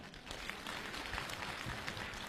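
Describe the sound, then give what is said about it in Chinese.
Audience applause at a crosstalk comedy show, a steady wash of many hands clapping at once, even and fairly faint throughout. “大家，鼓掌再热烈一点好不好？”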